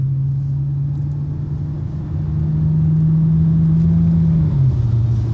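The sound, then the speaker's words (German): Steady low engine and road rumble inside a car doing about 66 km/h in the left lane of a highway as trucks overtake, a constant drone that swells slightly midway and dips lower in pitch near the end. “ich fahre 66 km auf der linken Spur. Rechts überholen uns LKWs.”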